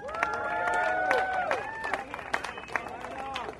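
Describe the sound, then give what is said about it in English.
Audience applause and cheering welcome a speaker at an event, with sharp claps mixed with whistles and raised voices, easing off toward the end. “give up a big warm round of applause for somebody who stands up for what he believes in”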